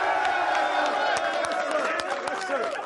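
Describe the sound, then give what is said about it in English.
Crowd celebrating at MetLife Stadium after the New York Giants clinch the NFC East championship: a dense, continuous roar of cheering with scattered claps, while a voice talks over it. “And they're celebrating in the aisles at MetLife Stadium.”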